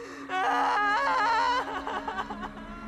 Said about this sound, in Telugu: అప్పుడే బంగ్లాలో నుండి ఏడుపు మొదలైంది.